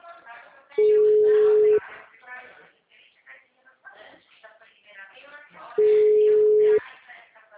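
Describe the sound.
Ringback tone of a telephone call that goes unanswered: two long, steady, low-pitched tones about five seconds apart, with people talking throughout underneath.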